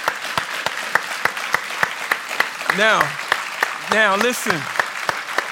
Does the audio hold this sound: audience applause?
yes